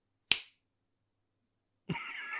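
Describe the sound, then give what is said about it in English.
One sharp, brief hand clap from a single audience member in an otherwise silent cinema at the end of a film. The clap is followed by quiet. “I clapped. Sorry, I clapped. That it was... it was just one single clap.”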